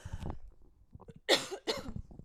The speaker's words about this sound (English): Just blew your eardrums out with that cough.